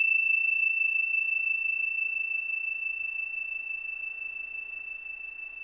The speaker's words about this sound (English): in the sound of the bell, moving through time,